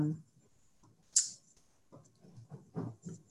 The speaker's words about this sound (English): So I maybe click to the next screen.